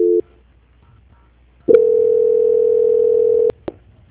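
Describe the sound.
Telephone line tone during a call transfer: a brief beep, a silent gap, then a steady mid-pitched tone lasting nearly two seconds, ending with two sharp clicks; no talk.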